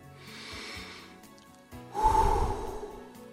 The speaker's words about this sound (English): Let's take a deep breath and have a prayer.